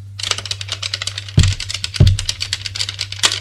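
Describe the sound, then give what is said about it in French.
Rapid typewriter keystrokes come from a police officer's machine on a table. Many quick, bright clicks form a busy rhythm, with two heavier low thumps partway through over a steady low hum. “Un autre flic, sur notre table, a une machine à écrire.”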